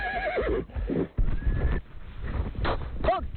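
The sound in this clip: Horses are ridden while driving a flock of sheep toward autumn pasture: a steady rumble of movement and hoof noise runs throughout, with a short, sharp whinny near the end.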